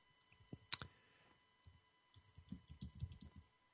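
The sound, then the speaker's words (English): Typing on a computer keyboard, faint: many light clicking keystrokes in two short bursts, the first brief and the second longer and busier. “Let me just do one real quick thing here because I can't talk and type at the same time.”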